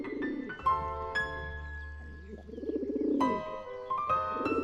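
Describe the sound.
Doves cooing at daybreak in early spring, a steady cadence of plaintive, tonal calls repeating over several seconds above a low, continuous hum.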